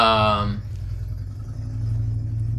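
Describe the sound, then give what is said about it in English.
Low, steady engine rumble from a motorcycle passing by, holding as a droning hum after a brief voiced tone at the very start. “that damn motorcycle.”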